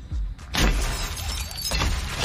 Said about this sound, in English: John Goodman scene where he's destroying that guy's car?